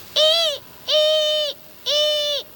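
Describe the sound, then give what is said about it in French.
A frightened owl hoots at night over forest and countryside, giving three sustained, even tonal calls with bright overtones, each about half a second long and separated by brief gaps. “On dirait des ululements. Une bestiole qui ulule la nuit dans les airs sans que je puisse entendre ses battements d'ailes, c'est forcément une chouette effrayée.”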